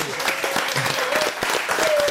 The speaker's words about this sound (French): je suis seul à applaudir. On applaudit.